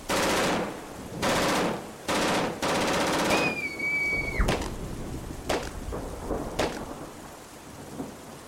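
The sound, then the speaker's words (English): Bursts of automatic gunfire in a game where people are being shot at, four sustained loud rattling volleys followed by a high falling whistle and a few sharp single cracks, with no talk. “They're shooting at innocent people. I think they're just shooting at anything that moves.”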